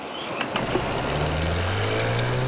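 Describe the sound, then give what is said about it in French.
Outboard motorboat engine approaching: a steady low drone that holds at an even loudness throughout, with its tone edging slightly higher in the second half. “Soudain, un bruit de moteur leur fait tourner la tête. C'est un hors-bord venu à leur secours, qui approche.”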